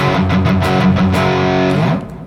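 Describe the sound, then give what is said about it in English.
Electric guitar played through an always-on TC Electronic distortion pedal gives a thick, sustained distorted tone. It rings alone for about two seconds, then cuts off and fades. “But I should say that the main distortion actually comes from the Mojo Mojo. Oh. The TC Electronic. That's just on all the time.”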